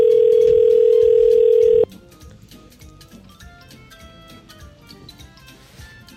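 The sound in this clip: A telephone ringing on an outgoing call: one loud, steady, pitched tone that cuts off abruptly, leaving faint hiss and soft ticking on the line.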